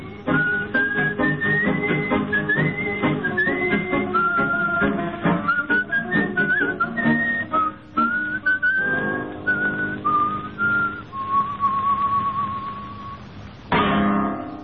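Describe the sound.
A man whistles a milonga tune alone: a lively melody of short notes stepping up and down, ending on a few longer held notes, with a thin, narrow-band tone.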